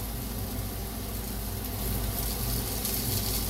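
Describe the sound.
Sizzling of potatoes frying in a pan as they brown for fried potatoes, a steady, fairly faint hiss with no clear breaks and no talking.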